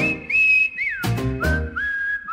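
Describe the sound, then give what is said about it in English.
Whistles blow in a rhythmic song: sustained high, clear tones that swoop up and down in short glides, broken midway by two sharp, loud percussive hits, with no talk over them. “Whistles blow.”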